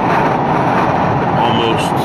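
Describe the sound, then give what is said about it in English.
Car driving on a very windy road: a loud, steady low roar of wind and road noise that stays even from start to finish. “very windy driving here, just trying to keep the car on the road and trying to keep at about the speed limit, not go too fast.”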